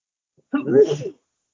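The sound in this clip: A single sneeze: one loud, voiced burst with a tonal start that breaks into a breathy release. It is short and alone after silence, with no talk.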